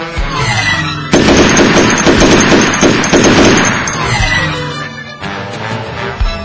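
Rapid gunfire bursts out in a battle scene as attackers open fire from the north. A dense, loud crackle of automatic shots runs for about four seconds, then cuts off abruptly.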